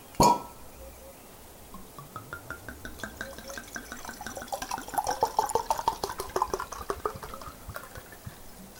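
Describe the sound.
Very old brandy being poured into a glass: a sharp knock at the start, then a long, steady run of rapid gurgling glugs and dripping splashes, moderately loud and without talk.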